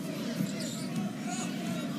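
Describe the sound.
A basketball is dribbled slowly out high on a court during a game, its bounces soft and partly buried under continuous talk.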